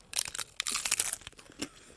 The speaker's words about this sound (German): Meine Taco, meine Muschel ist fertig befüllt. Du beißt rein. Ich beiß rein.